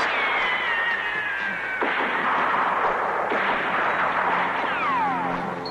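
Gunfire aimed at an airplane from a ship, with a few heavy, booming reports over a continuous droning whine that slides downward in pitch.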